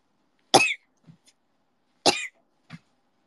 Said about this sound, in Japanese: 突然咳込み出したんやけど どうした呪われたか